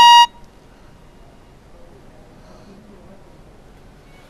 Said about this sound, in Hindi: ये कॉल हमारी ड्रॉप हो गई।